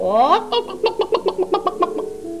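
Hen clucking, a little red hen: a drawn-out rising call, then a quick, even run of many short, clipped clucks, fairly loud and heard alone.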